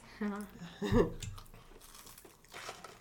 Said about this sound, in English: Can I scratch the mic with my nails?